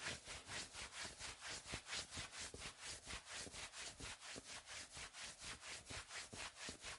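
Hands rub briskly up and down the arms in many quick, evenly paced strokes. The scratchy back-and-forth swishing is faint and continues steadily throughout.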